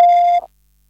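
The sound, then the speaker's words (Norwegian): A single voicemail beep after a German answering-machine greeting: a clear, steady electronic tone lasting under half a second, then silence. “Bitte hinterlassen Sie Ihre Mitteilung nach dem Signalton.”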